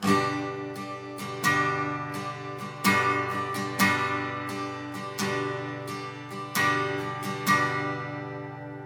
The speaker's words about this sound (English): And the more advanced strumming pattern that sounds like this.